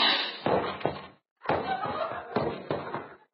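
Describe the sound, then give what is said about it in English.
Gunshot sound effects in an old-time radio comedy western: a few sharp, thudding bangs burst out over a dense, busy background, broken by a brief silent gap. “Well, either that guy bounced or I got him all with one shot.”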